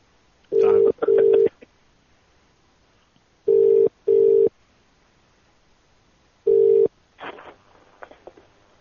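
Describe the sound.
Telephone ringing tone after a number is redialed, sounding in short double pulses: two pairs, then a single pulse, followed by a few faint, brief noises.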